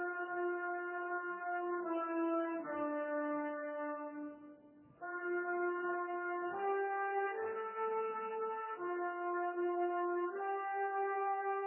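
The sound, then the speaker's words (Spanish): Flutes, oboes, clarinets and bassoons play in unison at the opening of a Rimsky-Korsakov overture, a solemn melody taken from Russian Orthodox church chant. Long sustained notes move stepwise, with a brief dip in volume midway. “comienza con un unísono de flautas, oboes, clarinetes y fagotes que entonan uno de los temas de la colección de cantos populares de la Iglesia Ortodoxa.”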